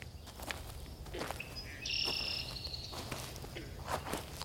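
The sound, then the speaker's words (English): A hiker's boots step along a trail, leaving a few soft crunching footfalls at irregular intervals. A high chirping call briefly sounds over the steps against a quiet outdoor background. “my boots are made for walking, so that's just what I'll do”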